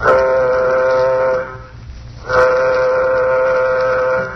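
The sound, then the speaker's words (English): A loud warning signal sounds aboard a nuclear-jet craft before takeoff: two long, steady, horn-like blasts separated by a short gap, with no voices over them. “Well, gentlemen, the moment has arrived. Sound warning signal. Sound warning signal.”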